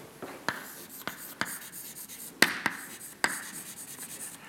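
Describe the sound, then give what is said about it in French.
Writing an equation on a board during a lecture on chemical kinetics: several sharp taps and scratchy strokes in an uneven rhythm, with no talk. “pour discuter ça, le plus simple, c'est d'écrire des, des, équations de cinétique chimique. Donc si j'écris l'équation pour l'activateur,”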